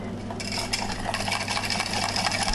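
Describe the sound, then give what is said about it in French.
Whisking egg yolks with sugar in a bowl: a faint, fast, continuous scraping and light clinking of the whisk against the bowl, starting shortly after a moment of near silence. “Et donc du coup, on va mettre le sucre. Donc comme ça, après, on les blanchit.”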